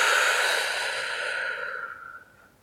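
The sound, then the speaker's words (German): A slow, breathy exhale during a guided breathing exercise: one long airy rush of breath that starts fairly strong and gradually fades to near silence, with no talking. “Und gemeinsam ausatmen.”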